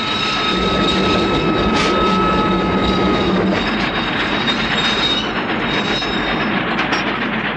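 Train brakes grinding hard on the wheels of a moving train, a loud, dense, steady rumble laced with sustained high-pitched squealing tones throughout.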